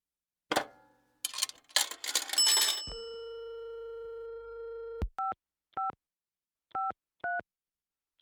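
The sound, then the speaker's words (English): Dialing a telephone in a phone booth while holding packages: fumbling clatter and clicks, then a steady dial tone, followed by four short touch-tone beeps with uneven gaps, as if dialing with difficulty. “He's in a phone booth, holding some packages, and he has some trouble dialing.”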